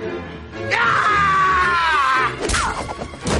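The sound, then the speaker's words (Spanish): A blow to the head and two people falling to the floor in a tense western film scene: a loud, drawn-out strained scream, then a sharp crash with heavy thuds. “La golpea en la cabeza. Los dos caen al suelo.”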